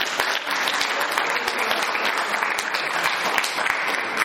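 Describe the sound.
Dense, steady applause from an audience at a talk, loud and continuous from start to finish with no break, made of many overlapping claps and no voices on top.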